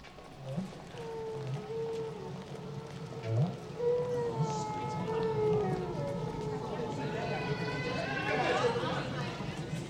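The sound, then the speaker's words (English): Recorded song of a male whale: long, low tonal moans and wavering calls that give way to higher, overlapping up-sweeping cries near the end, sustained and moderately loud. “What you're hearing is recorded whale song. It is sung by the male.”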